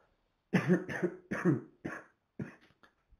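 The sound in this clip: A man coughs in a series of harsh, fairly loud bursts with short gaps between them, then several fainter, shorter coughs trail off at the end.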